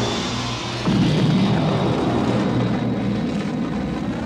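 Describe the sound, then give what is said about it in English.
Roaring engine thrust from a Star Wars shuttle launching out of a Star Destroyer's hangar: a dense, steady rumble that jumps louder just under a second in and then holds at full power. “The shuttle shot downward from the Star Destroyer's hangar, rocketing past the prison barge and into space.”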